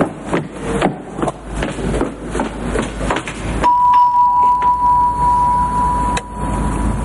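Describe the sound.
A doorbell buzzes at a studio door reached by stairs. It gives one long, steady tone lasting a few seconds over low rumble and shuffling.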